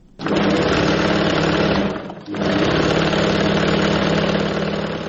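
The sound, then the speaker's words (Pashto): A tailor's sewing machine in Kabul's Qala-e-Zaman Khan runs with a dense, steady motor whir, loud and continuous, cutting out briefly about two seconds in before resuming at the same even level. “د مشرق الله د خیاطۍ د ماشین غږ دی.”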